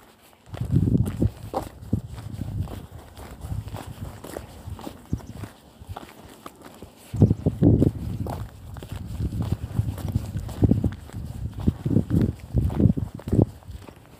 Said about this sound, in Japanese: ジャンクションがあるのでそこまで今テクテク歩いているところです